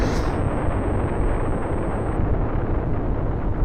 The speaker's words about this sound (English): But then the whole habitat explodes and takes that with it.